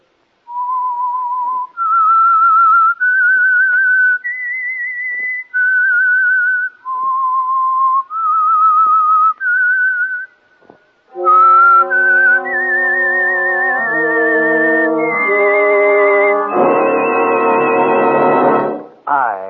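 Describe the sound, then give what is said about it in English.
A lone whistler carries a clear, melodic theme tune that serves as a mystery drama's signature. Short phrases move between higher and lower notes, followed by a louder, fuller passage of sustained, richer tones. “That whistle is your signal for the Signal Oil program, The Whistler.”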